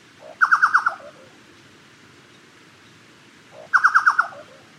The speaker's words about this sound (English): Chucao Tapaculo, 30 de septiembre del 2014.